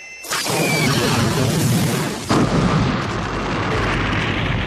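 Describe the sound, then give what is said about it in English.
Laser blast hitting a gun emplacement at a spaceport: two loud explosive bursts, the first sharp at the start and the second midway, with a heavy rumbling roar sustained throughout. “a brilliant needle of laser energy leaped from the top of the spaceport's main terminal building and hit the gun emplacement”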